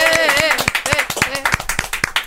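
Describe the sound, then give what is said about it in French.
Audience applause for a performer after an instrument demonstration: many quick, sharp claps that rise and fall in bursts, with voices talking over them. “Hein, ouais, on l'applaudit. Bravo Bruno.”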